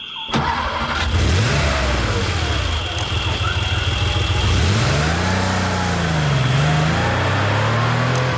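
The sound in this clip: A car engine starting and then revving: a sharp start-up, followed by a few strong revs that rise and fall in pitch over a rumbling idle, loud and without any talk.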